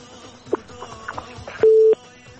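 A phone line gives a single short, steady beep after a caller's call drops, a loud, flat tone preceded by a few faint clicks.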